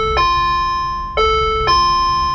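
A doorbell rings at a locked school gate: three clear, bright electronic chime strikes, the first alone and the last two closer together, each leaving a ringing tone that sustains loudly.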